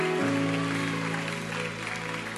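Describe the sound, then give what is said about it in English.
A round of applause from a church audience, a steady wash of clapping at moderate level over sustained musical chords that hold beneath it. “Can we just give a round of applause? Come on, so good.”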